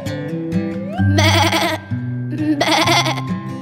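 A sheep bleats twice in quick succession, each call a loud, wavering, buzzy cry.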